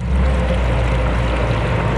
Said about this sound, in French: Ces fontaines, appelées nasoni, en raison de la forme de leur bec qui ressemble à un grand nez, offrent une eau potable bien fraîche puisque le flux est incessant.